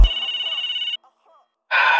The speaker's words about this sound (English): Hello? Don't you hate it when people spam prank calls?